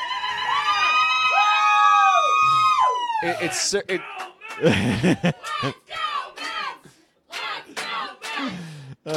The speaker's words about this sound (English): Thanks to the audience here, the studio audience.